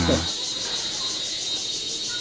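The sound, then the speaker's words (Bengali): Crickets chirp in a steady, shrill, densely pulsing trill that holds at an even loudness through the whole clip. A brief voice overlaps it at the very start. “ওই যে ঝিঝির শব্দটা বেড়ে”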